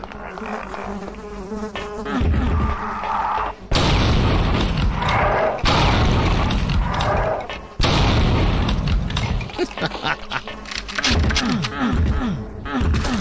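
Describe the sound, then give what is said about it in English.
Explosions in a video game: a few loud blasts with sudden, booming onsets, set among constant buzzing, insect-like drone and other busy game noise. “Right, so we know these things fucking explode.”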